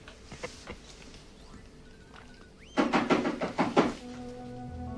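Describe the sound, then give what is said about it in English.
Knocking on a door arrives as a quick run of sharp, hollow raps, several in rapid succession, loud against a quiet background with a few softer thuds earlier. “The knocking startles him.”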